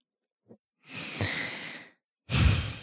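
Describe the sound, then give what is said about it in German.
A slow, deep breath in and out during a guided yoga meditation: a long, airy inhale, a short pause, then a louder, fuller breathy exhale, preceded by a faint soft click. “Atme nochmal tiefer ein und aus.”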